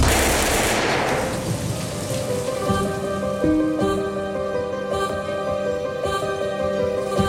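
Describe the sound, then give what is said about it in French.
A firing squad rifle volley at an execution: one loud, sharp crack at the start that decays over about a second, followed by sustained, steady musical tones. “Bonny, les traîtres ont été condamnés à être fusillés par un peloton d'exécution composé de FFI. En position ! Armée ! En joue ! Feu !”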